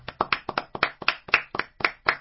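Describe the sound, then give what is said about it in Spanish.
Hand clapping at the close of a farewell tribute: a run of sharp, evenly spaced claps, loud and steady, with no voices over them. “Y vamos a darle un fuerte aplauso.”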